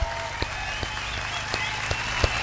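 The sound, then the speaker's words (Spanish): Applause rings out as steady, dense clapping, with several sharp, louder individual claps popping out above the wash over a low background hum. “¡Aplauso a esta ciudad que tiene un mundial!”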